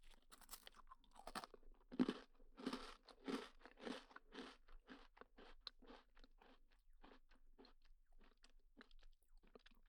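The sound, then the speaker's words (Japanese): Soft crunchy chewing of cookies, with many crisp bites and munches. The munching is dense and loud at first, then becomes lighter and more spaced toward the end. “私はクッキーおいしいもぐもぐってしてるんです。”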